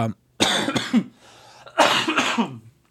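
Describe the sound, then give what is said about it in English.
A person coughs in two separate bouts, each a harsh, loud burst of several rapid hacks, with a short quiet gap between them. “Coughing. Getting it out of the way now.”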